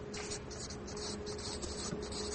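A pen writes on paper in quick, scratchy strokes, a rhythmic run of short scrapes over a faint steady hum.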